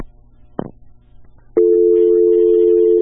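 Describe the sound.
A busy tone after a phone call is cut off: two sharp clicks, then a loud, steady, continuous electronic tone that holds unbroken to the end.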